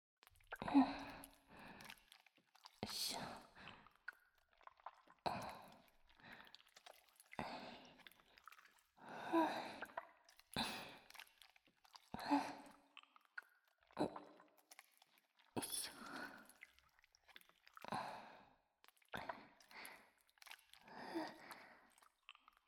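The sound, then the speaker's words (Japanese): Wet soap being lathered into foam inside a towel: many irregular squishing, squelching bursts as the soapy towel is squeezed and rubbed, fairly loud, with no talk. “それではまずは石鹸の泡泡をタオルでお作りしましょうか。石鹸をタオルの中に入れて、”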